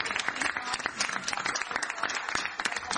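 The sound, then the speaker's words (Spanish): Crowd applause at a political gathering: dense, steady clapping from many hands, loud and continuous for the whole stretch with no voices over it. “Un fuerte aplauso.”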